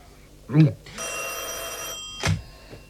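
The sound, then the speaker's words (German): A telephone bell rings in Moscow in one continuous, bright, metallic burst lasting about a second, with short bits of speech just before and after it. “Ich kenne Ihr Klingeln. Kein Mensch in Moskau lässt das Telefon so überzeugend klingeln wie Sie.”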